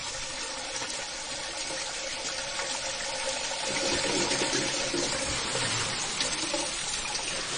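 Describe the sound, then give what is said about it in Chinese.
Ocean waves wash steadily in broad, rushing water noise, swelling slightly louder midway through, with no voices. “这个海浪声好好想听啊，好久没试过海滩了已经是。”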